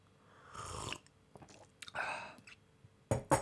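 Faint slurping sips of instant coffee come in a few short, wet bursts separated by quiet gaps, with soft mouth clicks between them.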